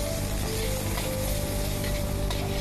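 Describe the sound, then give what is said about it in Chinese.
Fish bones and fish sizzle as they are stir-fried in a wok of hot peanut oil with scallion and ginger, giving a loud, dense, continuous frying hiss with no talk. “炒锅上火，加适量花生油，油烧热以后用葱姜爆锅，随后放入鱼骨和鱼肉翻炒”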